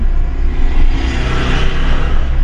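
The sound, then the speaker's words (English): A car drives along a tar road through Kruger National Park between Skukuza and Lower Sabie. Its engine and tyres make a loud, continuous rumble that stays even throughout, with no talk. “Okay, so we're setting off on the road. It's a tar road that takes us all the way from Skukuza to Lower Sabie.”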